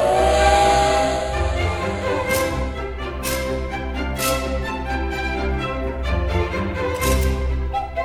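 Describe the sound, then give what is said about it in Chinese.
A train whistle as the train departs: a sustained, tonal steam whistle over the first two seconds, then a few short, sharp bursts of hissing steam spread through the rest. “各位小朋友请注意，音乐故事湾列车即将启动，请到第一月台搭乘。”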